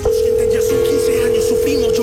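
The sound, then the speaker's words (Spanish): Continuous ringback tone of a telephone call ringing unanswered, one steady mid-pitched tone lasting the whole clip, with a voice talking over it. “Está sonando. Hasta el momento nadie contesta.”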